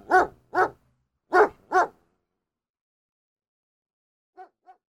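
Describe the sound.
A dog barks four times in two loud, close pairs, each bark short and voiced, then a pause before two much fainter, brief sounds.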